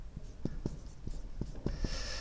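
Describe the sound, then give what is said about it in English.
Writing on a board: several quick, scratchy strokes in an irregular rhythm, faint and heard alone. “nothing looks right when you write on the board”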